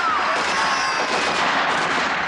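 Volleys of rifle gunfire from soldiers shooting into a packed crowd merge into a loud, dense, unbroken crackle with no clear gaps between shots.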